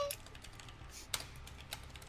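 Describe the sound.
Typing a letter on a computer keyboard produces many quiet, irregular key clicks, with a few sharper taps standing out over a faint steady background and no voices.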